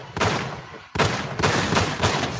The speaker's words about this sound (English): Shots fired. Hit the button.